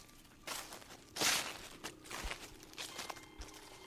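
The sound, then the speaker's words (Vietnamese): Footsteps crunch and rustle through dry leaves behind a house: several soft, uneven steps with crisp scraping bursts, one louder crackle early on, all fairly faint against a quiet background. “ở sau nhà truyền đến bước chân dẫm lên đám lá khô sột soạt”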